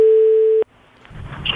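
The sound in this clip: A steady, even telephone tone sounds while someone places a call to tell a person about a lottery prize. The tone holds for about half a second, cuts off abruptly, and gives way to faint, slowly rising noise.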